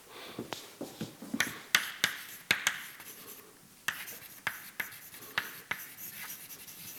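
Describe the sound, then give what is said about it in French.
Writing out an equation makes many short, scratchy strokes and sharp taps in an irregular rhythm. The sounds are fairly faint and carry no talk. “Alors, je vais simplement réécrire ça.”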